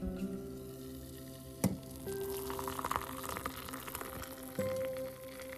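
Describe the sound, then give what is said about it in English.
Water boiling for coffee makes a faint, steady hiss with a crackling, bubbling texture, a soft click near the start, and a low hum underneath. “It is time for my Je t'aime beaucoup le café. Oh, I can hear a boil.”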